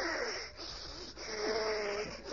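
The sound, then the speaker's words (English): A person breathing in and out for a doctor's stethoscope check in an old radio drama, with a faint, raspy, wheezing rhythm. A few ragged breaths have a whistling, snore-like tone. “Now, just breathe in and out, please.”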